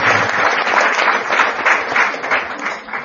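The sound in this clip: Applause from the crowd at a devotional gathering as revered guests arrive: dense, steady clapping that fills the whole stretch at even loudness, with no talk over it.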